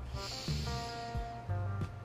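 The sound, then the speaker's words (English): A slow, deep breath taken during a guided relaxation exercise, heard as a soft, airy hiss. It sits faintly over calm, sustained tones. “Deep breath in”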